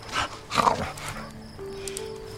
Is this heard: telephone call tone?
no